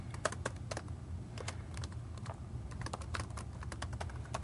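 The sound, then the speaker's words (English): Typing on a computer keyboard: many quick, quiet clicks in irregular bursts, with short pauses between runs of keystrokes. “Oops, if I could type.”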